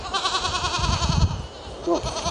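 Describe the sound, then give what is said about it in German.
Goats bleat on a goat farm in Schöneiche, a long wavering, quavering cry followed by a shorter bleat near the end, loud over a low rumbling background. “Seit kurzem leben wieder Tiere auf dem Ziegenhof von Jürgen Teut in Schöneiche.”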